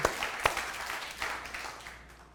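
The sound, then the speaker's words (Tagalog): An audience applauds during a church service: a couple of sharp claps open a brief burst of dense clapping that gradually thins and fades. “Palakpakan mo yung Panginoon.”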